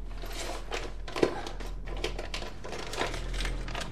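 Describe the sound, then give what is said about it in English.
Clear plastic bag being pulled out from a hidden space under a toilet and handled, giving soft irregular crinkling and rustling bursts with one sharper crackle, over a steady low hum. “She crouches down and pulls a clear plastic bag stashed in a space under it.”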